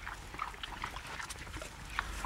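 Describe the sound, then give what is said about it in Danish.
Pigs on a farm, standing on grass on a morning, give faint, short grunts and snuffles that come irregularly over low background noise, with no talk. “som man måske kan høre, Ruth, så står vi inde ved grisene”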